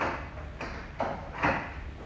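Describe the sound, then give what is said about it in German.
Shop door being closed and locked: a few soft, dull knocks and clicks spaced under a second apart, faint against a low steady hiss. “Augenblick, ich will nur mal den Laden abschließen.”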